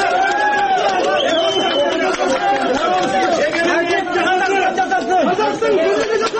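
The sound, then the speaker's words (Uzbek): Dense crowd chatter from hundreds of people gathered outside a courtroom to greet someone freed by the court, many overlapping voices forming a loud, steady mass of talk throughout. “Sud zalidan ozod etilgan Sayragul Saudbayni yuzlab odamlar tabrikladi bilan kutib oldi.”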